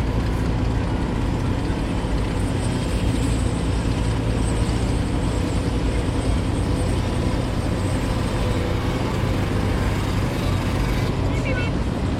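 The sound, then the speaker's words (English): An engine pulling away down a hill gives a loud, steady, heavy mechanical rumble that continues unbroken throughout. “his wife, Karen, is having her first ever trip on an engine just disappearing down the hill”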